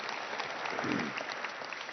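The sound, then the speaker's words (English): Applause rolls from an audience at a community gathering, a dense, steady patter of many hands clapping at fairly low volume throughout. “so give yourselves a round of applause for welcoming in the community.”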